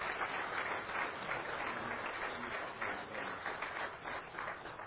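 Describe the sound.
Audience applause welcoming a guest speaker at an evening gathering, a steady, dense patter of many hands clapping at a fairly faint level without a break.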